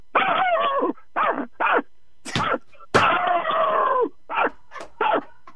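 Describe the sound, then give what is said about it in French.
A person imitating a small dog barking, voicing many high, yappy barks and whiny yelps in quick bursts of varying length, some short and clipped, one drawn out. “Là, tu vas nous faire le petit chien, OK.”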